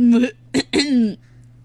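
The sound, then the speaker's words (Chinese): A narrator voices a pig character clearing its throat, three throaty voiced bursts: a longer rasp, a short sharp catch, then a drawn-out rumbling ahem, with no words spoken. “流浪猪清了下嗓子，神情严肃地对大嗓门和小胖墩儿接着说”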